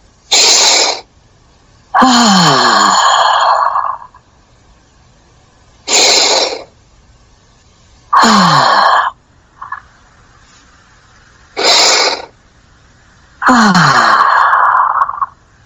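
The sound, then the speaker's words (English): Slow, deep breathing during a calming exercise, with each short inhale followed by a longer, drawn-out exhalation. Three full breath cycles are heard, rhythmic and fairly loud, with no talking. “allowing your out breath to be longer in time than your in breath. So making your exhalation longer.”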